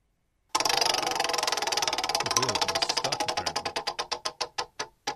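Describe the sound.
A prize wheel spins on a sports call-in hotline, giving a rapid stream of loud ticks that gradually slow and spread apart until the last few clicks come singly and the wheel stops.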